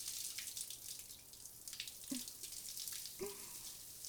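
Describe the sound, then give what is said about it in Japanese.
Warm water runs to rinse, a soft, steady hiss of flowing water with a couple of faint, brief splashes. “温度はこんなものかな。流していくね。”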